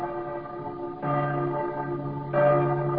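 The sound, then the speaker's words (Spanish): Church bells ring in Quito with deep, resonant strikes over a sustained ringing hum, a new stroke landing every second or so. “En la muy noble y muy leal ciudad de San Francisco de Quito, cuando las campanas tañen”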